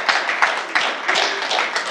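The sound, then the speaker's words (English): Hand clapping by one person in a church service at Redemption Church in Plano, Texas. The claps are dense and sharp and come in a steady run of repeated strikes, evenly loud across the whole stretch. “This is me clapping my hands, thanking you”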